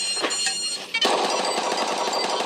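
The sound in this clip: Rapid gunfire rattles as a weapon is fired at targets in a developers' demo video. The bursts are dense and continuous, with a brief dip just before the midpoint and then a denser stretch of fire.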